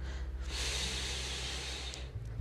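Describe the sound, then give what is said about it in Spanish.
A person breathing in and out, heard as a soft, drawn-out airy breath that holds for over a second, quiet and alone with a faint low hum beneath. “Ese aire que estoy inhalando y que estoy exhalando”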